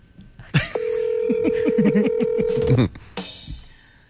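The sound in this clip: A telephone being dialed to place a call: a steady electronic tone holds for about two seconds while a voice talks over it, framed by louder bursts before and after.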